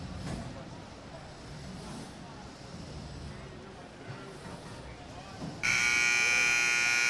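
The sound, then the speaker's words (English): Whirring of a combat robot's spinning weapon during an arena fight, heard first as a steady, rough noisy wash, then as a loud, high buzzing whine that cuts in abruptly near the end and holds steady. “Robo Lope using the only thing it knows how to spin. That is scary fast.”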